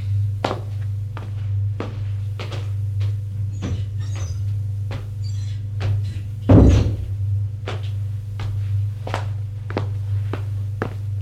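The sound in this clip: Footsteps of a man walking out of his office, many regular soft steps over a steady low hum, with one heavier thump partway through like a door.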